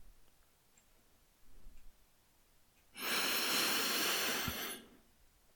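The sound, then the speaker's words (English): A deep breath in and a slow breath out. A faint, short inhale comes first, then a loud, steady, airy exhale lasts about two seconds before it stops. Quiet surrounds both. “Let's finish with another deep breath.”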